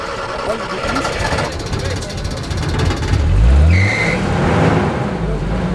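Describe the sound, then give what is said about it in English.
A beat-up, muddy Toyota minibus taxi with bald tires starts its engine and rolls forward, the motor revving with a low rising pitch midway through a dense, noisy background. “Finally, a dubious Halverson gets it started, and the matatu rolls forward.”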